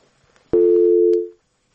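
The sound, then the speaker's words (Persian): A single steady telephone tone follows a cut-off call, holding one even pitch for just under a second before fading out, with no talk. “بله یک تماس قطع شد.”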